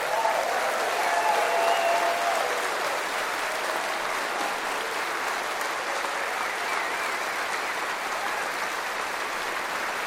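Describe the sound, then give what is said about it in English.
An audience is on its feet, clapping with steady, dense applause that holds at an even loudness for about ten seconds. “If you're watching on TV, that clapping is for you.”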